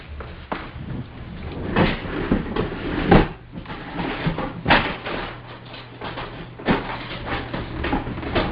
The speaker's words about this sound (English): You can probably hear me rustling in my drawer too.